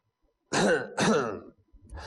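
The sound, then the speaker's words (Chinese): Coughing attributed to an old cart driver, voiced by a storyteller imitating the sound: two harsh, loud throat-clearing coughs in quick succession, then quiet. “还直咳嗽”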